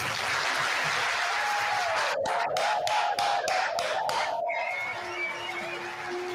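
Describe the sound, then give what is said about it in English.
Applause and cheering from a town hall audience in a standing ovation for Donald Trump at a CNN event, a dense, steady roar of clapping that holds strong and does not let up. “Standing O. At least half the room. There they go.”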